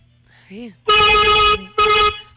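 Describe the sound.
Two long, loud blasts from a vehicle horn, each lasting over half a second with a short gap between them, preceded by a brief voice.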